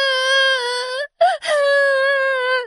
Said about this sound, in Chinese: 布布公主难过的哭了。